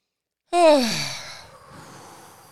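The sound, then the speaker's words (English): A deep breath, taken by a group to calm down, is released as a loud voiced sigh. The pitch falls steadily, then fades into a long, soft, breathy tail, with no talking around it. “So now, do we all need a breath? I do. All right. Let's, can we all take a deep breath?”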